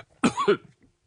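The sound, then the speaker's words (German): Coughing from someone who has just choked on something: a short, harsh burst of two or three loud coughs, strong and alone, with faint breathing after. “Aber ich hab mich verschluckt.”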